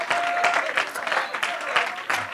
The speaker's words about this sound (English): why don't you give the Lord one more great hand clap of praise. Come on, why don't you just continue that for just a moment?